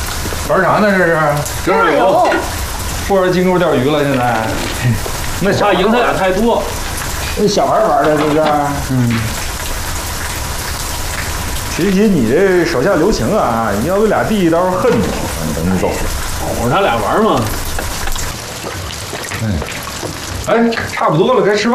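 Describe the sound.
Food frying in a pan at home gives a steady, soft sizzling hiss that runs under people talking throughout.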